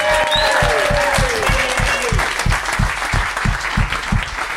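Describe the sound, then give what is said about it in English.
An audience applauds and cheers a contestant on a quiz show with a dense, loud clatter of clapping. A steady thumping beat joins in partway through while the applause carries on. “Big round of applause for Josh, everybody, fantastic.”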